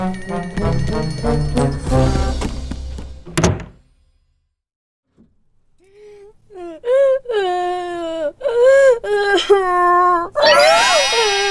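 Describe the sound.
A child whimpers and wails in a series of wavering, high-pitched sobbing cries that begin after a short silence.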